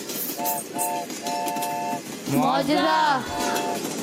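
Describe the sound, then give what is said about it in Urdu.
Train horn sound effect on a quiz game show: two short toots and one long blast, then another short toot after a louder, warbling stretch, over a constant background hiss. “Break چھوڑیے train چلائیے”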